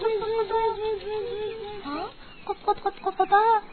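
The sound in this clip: A chick clucks: a long, wavering high call, then a quick run of short, rhythmic clucks that grow louder toward the end.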